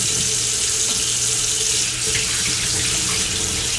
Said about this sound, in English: Now I need to wash my hands because they're all greasy.